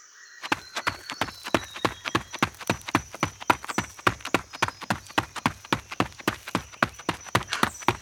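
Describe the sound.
Footsteps of someone running fast: many sharp, even footfalls in a quick, steady rhythm of roughly four per second, with a faint high tone above them.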